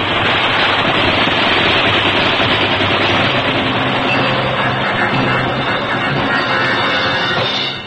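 Enemy gunfire from German forces in a wartime battle. It is a dense, continuous rattle of shots that stays loud and unbroken for about eight seconds, with no talk over it.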